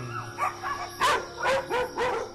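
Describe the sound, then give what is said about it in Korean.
Dogs barking at night, a run of about five sharp barks and yips in quick succession, loud and alone with no talk. “밤이 되면 목청을 높이는 아이들. 이렇게 짖어도 뭐라 할 사람도 없고요.”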